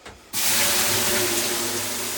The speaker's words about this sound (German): soll ich dir jetzt mal ein bisschen Wasserdampf aufgießen hier, damit das ein bisschen kuscheliger wird?